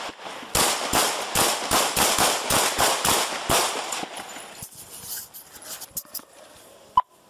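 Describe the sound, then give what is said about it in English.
Gunshots during a police confrontation with an armed man: many loud, sharp reports fire in rapid succession, then quieter scattered clicks follow, and one more sharp bang comes near the end. “shots fired”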